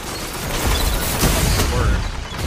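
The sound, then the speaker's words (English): Gunfire and a grenade blast in a multiplayer shooter match: a dense, loud barrage of shots and booms fills the whole stretch with no break. “Oh, I grenaded him!”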